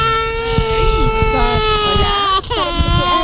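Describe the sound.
A two-year-old boy cries in his mother's arms while the family sleeps outdoors on the ground; high, wavering whimpering cries sound under and between a woman's speaking voice.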